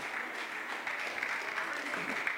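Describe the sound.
A church audience claps their hands during a worship service, making dense, steady clapping for the whole stretch, with voices mixed in.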